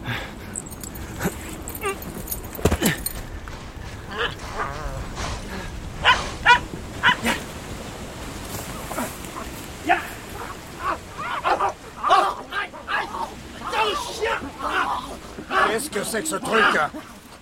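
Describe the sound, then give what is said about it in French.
A frightened dog barks and whimpers, letting out many sharp yelps and thin whines scattered through the scene, mixed with people talking. “J'ai fait peur au chien, je suis désolé.”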